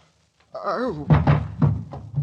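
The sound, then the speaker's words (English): Heavy pounding on a door by police wanting to be let in: several dull, booming thuds in an uneven burst, with a voice calling out over them. “Well, don't tear the door down. I'm coming.”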